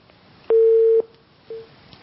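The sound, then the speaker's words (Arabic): A telephone disconnect tone on a call-in line: one steady mid-pitched beep held for about half a second, then a second, shorter and fainter beep, with no talking. “قطع اتصال.”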